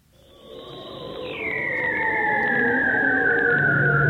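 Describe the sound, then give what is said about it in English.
A bearded seal vocalizing in the Arctic produces one long warbling trill that starts high, steps down, then keeps gliding slowly lower while growing louder. “And 10,000 miles away, the bearded seal in the Arctic.”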